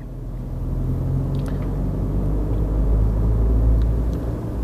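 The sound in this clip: A car drives steadily on a road at a moderate pace, with a continuous low rumble of engine and road noise throughout and a few faint, brief ticks above it.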